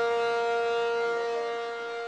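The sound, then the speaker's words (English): Emergency sirens sound at an oil refinery during a fire, signalling residents to shelter in place. One loud, sustained wail holds a steady pitch with rich overtones, then fades slightly toward the end, with no talk. “Emergency sirens roar at the Chevron refinery in Richmond, while a fire at the refinery sends flames and a plume of thick black smoke into the sky. The alarm means shelter in place.”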